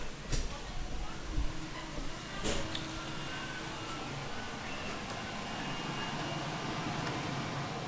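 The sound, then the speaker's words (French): A digital cutting machine runs in a shoe factory, giving off a steady, even whirring drone that holds level throughout, with a few faint clicks early on. “voilà une machine très contemporaine qui est euh, une, machine de découpe, une machine de découpe numérique”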